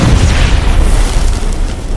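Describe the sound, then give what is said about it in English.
A grenade explosion fills the whole clip as a loud, sustained roar of deep rumbling noise. It holds at full strength throughout, with no separate bursts. “The next moment, the script says, the grenade detonates.”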